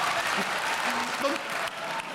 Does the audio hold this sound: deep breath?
no